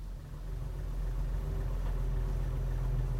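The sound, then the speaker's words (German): A car engine runs quietly at idle, giving a steady, low, even hum that holds unchanged throughout with no voices. “Ich sitze im Auto. Der Motor läuft leise.”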